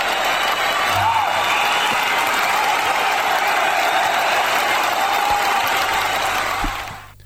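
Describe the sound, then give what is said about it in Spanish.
An ovation of sustained applause, dense and steady, holds for several seconds before fading away at the end. “La ovación para él.”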